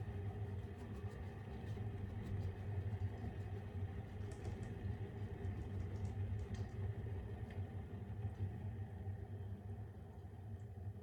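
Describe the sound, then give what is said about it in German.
A Senseo coffee pod machine brewing gives a quiet, steady low mechanical hum with a faint buzzy rattle, unbroken for about eleven seconds, with no talking over it. “Das ist also wieder meine Senseo. Und sie ist wieder wirklich, ja, wie früher, wie mein erstes Modell,”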